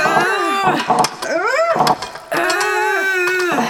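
People strain to pry open a locked lid, letting out a few drawn-out, effortful groans; one rises and falls in pitch, between short grunts and breaths.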